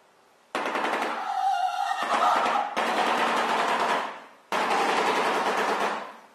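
Rapid machine-gun-like rattling call of a bird with a long bill ending in a sharp nail-like tip, played from a recording; loud, dense bursts of fast clattering pulses separated by short silences.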